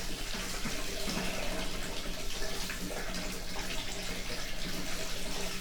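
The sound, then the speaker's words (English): Water runs steadily from a tap while hair is being rinsed, a loud continuous rushing splash without pause. “We gotta rinse.”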